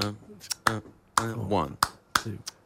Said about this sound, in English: It's it's a 5/4 clave that my percussionist showed me, Antonio Sanchez. Wait, clap it for me.